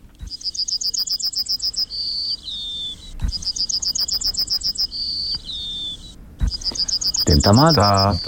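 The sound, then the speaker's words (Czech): A yellowhammer sings at Vyžina in the Beroun region, three high songs of rapid repeated notes, each closing with drawn-out notes, over a steady rhythmic pulsing background. “Ale teď vám pustíme ukázku, jak zpívá strnad z Vyžiny, konkrétně z obce na Berounsku.”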